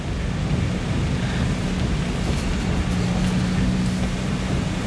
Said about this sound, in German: Der Sturm ist so stark, dass er den Wagen fast an der Straße weht.